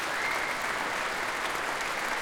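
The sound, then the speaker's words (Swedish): Audience applause for the percussionists after an orchestral piece: a dense, even wash of many hands clapping at a steady level throughout, with no voices. “som ger slagverkarna en extra rundas applåder efter det här stycket.”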